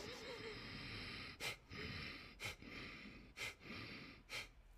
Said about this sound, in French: Je relâche un tout petit peu par le nez. Alors c'est seulement avec le nez, hein. pas par la bouche, seulement avec le nez.